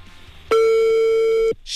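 A single steady telephone call tone, loud and even in pitch, sounding for about one second during the dialing of a call, with quiet background noise before and after.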